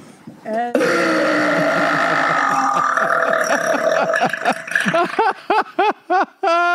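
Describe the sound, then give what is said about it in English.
A girl gives one long, loud, drawn-out burp lasting several seconds, then a quick series of several short, punchy burps with brief gaps between them. “she would drink Dr. Pepper and burp like that”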